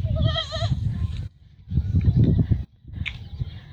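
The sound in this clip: A female goat who has just had two kids bleats once in a high, quavering cry at the start, followed by rougher, lower noisy sounds broken by short pauses.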